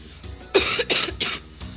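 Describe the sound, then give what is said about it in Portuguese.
Three harsh, raspy coughs in quick succession from a person with a lingering cough, fairly loud and without speech. “Minha tosse não melhorou até agora”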